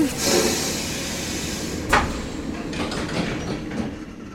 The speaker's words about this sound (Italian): Io rimango, sempre sul treno.